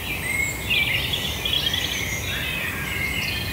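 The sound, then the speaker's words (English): A robin sings a fast, twittery song of thin, high warbling phrases over a steady background hiss. “So the robin is that faster, more twittery kind of song that you're hearing.”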